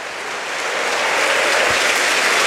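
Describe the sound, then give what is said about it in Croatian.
A football stadium crowd applauds as Ivan Perišić is substituted off, a loud, dense wash of clapping that swells a little and then holds steady. “Pljesak iza Perišića”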